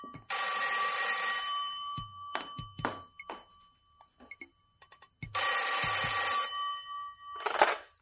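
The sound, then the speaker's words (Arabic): A telephone bell rings in two long, loud bursts a few seconds apart, with scattered thuds and small knocks in the gap between them; no voices are heard. “حد يرد على التليفون. انا اللي هقوم ارد يا ماما.”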